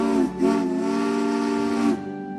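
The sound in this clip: A streamlined mainline steam engine's whistle sounds a short blast, then a longer steady high-pitched tone, and ends in a fading hiss of steam.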